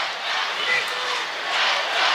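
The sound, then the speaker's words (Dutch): Crowd roaring in the sold-out Belfius Hockey Arena during the final minutes of a field hockey match against Spain, a dense, steady wash of cheering and shouting that holds at a constant loud level throughout. “Het publiek geeft nog een laatste keer alles. Deze uitverkochte Belfius Hockey Arena.”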